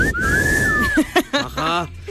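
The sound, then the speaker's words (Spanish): A single sustained human whistle, high and clear, holds a nearly steady pitch for just under a second, then people speak briefly afterward. “No, tienen que silbar.”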